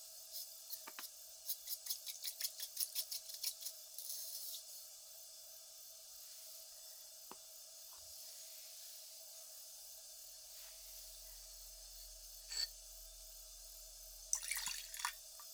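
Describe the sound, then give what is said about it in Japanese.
A bamboo tea whisk is swished through hot water in a bowl, making a run of many quick, soft, rhythmic splashing strokes. Quieter stretches follow, with a few light taps and a faint low hum, all at low volume. “茶筅をお湯になじませます。”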